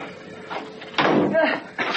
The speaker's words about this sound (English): I'd been locked in the room for no more than 10 minutes when the door was opened and Maria and Joseph were roughly pushed inside.